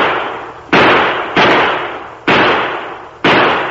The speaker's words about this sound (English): Fire overhead. Right. Oh, don't.